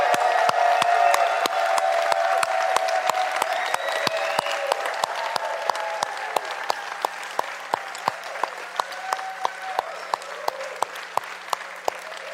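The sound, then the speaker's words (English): A church audience applauds loudly to welcome worshippers joining online, with dense, sustained clapping and crowd noise. The applause continues for many seconds and eases slightly in level while sharp individual claps keep punctuating it. “And then you're going to hoot and cheer and holler and clap.”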